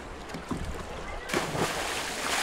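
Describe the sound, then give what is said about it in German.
A swimmer jumping into the deep end of a swimming pool during a swimming test makes one sudden loud splash midway, followed by continuous churning and sloshing water that stays loud to the end. “Der Sprung ins tiefe Becken, das erste Kriterium, ist schon geschafft.”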